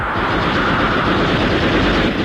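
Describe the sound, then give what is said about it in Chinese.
Machine-gun fire in a dramatized battle scene, a loud, dense and continuous rattle of rapid shots with no clear gaps between bursts. “鬼子越来越近了，刘红端起机枪要冲。李正起身制止，不料自己胸口中了子弹。”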